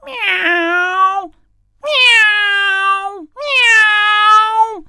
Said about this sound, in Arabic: ووقف أمام باب بيت يارا وهو يموء بصوت عال